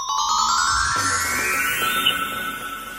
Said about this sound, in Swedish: Och nu tror jag att jag väntar ett samtal.